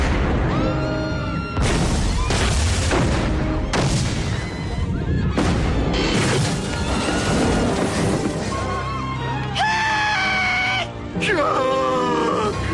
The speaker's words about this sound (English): But he gets a whiff of some. Propane. Boom. Yeah, that propane goes...